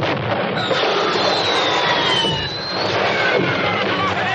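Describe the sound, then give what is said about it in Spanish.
A fired rocket whistles and spins through a dense, continuous roar of blasts and noise, the rocket nearly striking an admiral. Thin whistling tones sweep downward over the loud, steady clamour. “muy buen tiro. Un cohete gira y casi le da al almirante.”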